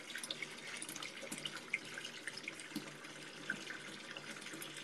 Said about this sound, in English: Wait, maybe the water running is too loud.